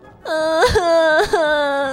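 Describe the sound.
A girl cries in a loud, high, sustained wail broken by two brief sobbing catches of breath, with no words spoken.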